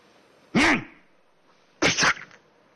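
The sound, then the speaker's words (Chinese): A voice imitates a sneeze. It is loud and in two parts: a pitched, swelling 'ah' intake, then after a short pause a sharp, breathy burst. “还没等天庭侠明白怎么事儿呢，啊嚏一个喷嚏”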